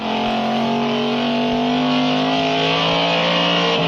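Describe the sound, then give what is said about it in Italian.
A 1960s Alfa Romeo Duetto sports car engine drones loudly and steadily, with a rich stack of harmonics and slight shifts in pitch as it runs. “Vi ricordate il mitico duetto Alfa Romeo, simbolo delle quattro ruote degli anni 60? Quello è il dono che papà Braddock fa al rampollo, fresco di laurea, Ben, Benjamin per l'esattezza.”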